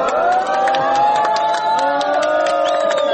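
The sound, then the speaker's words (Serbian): A group of refugees at the Horgoš border crossing on the Serbia–Hungary fence applauding Hungarian soldiers and shouting ironically: dense clapping and raised crowd voices blend into a sustained, loud cheer throughout. “Aplauzom, ironičnim povicima "Bravo!", grupa izbjeglica je pozdravila mađarske vojnike”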